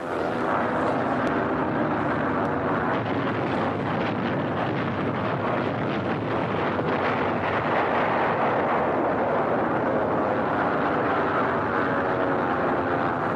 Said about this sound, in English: Here is real pinpoint bombing. One of the last bridges between the invasion coast and Paris gets it.